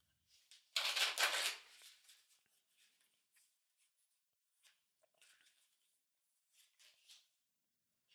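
Tarot cards are shuffled in a quick papery riffle about a second in, followed by a scattering of faint card taps and soft rustles, all quiet and with no voices.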